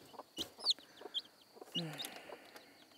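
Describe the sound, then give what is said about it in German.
A hen clucking in a string of short, soft, throaty clucks mixed with a few sharper high chirps, spaced irregularly and fairly faint. “Nicht so einfach, einen Huhn auszutricksen. Ist auch richtig hartnäckig.”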